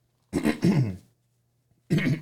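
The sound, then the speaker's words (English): A man clears his throat in two rough, voiced bursts: a longer one with a short gap inside it, then after a pause a second burst that is cut off at the end. The bursts are loud and heard alone over a faint low hum. “He's getting ready. He's clearing the throat.”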